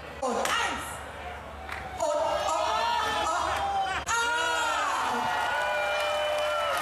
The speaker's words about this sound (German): aber wirklich ein gezielter Schlag und das Kölsch sprudelte schon so aus dem Fass raus.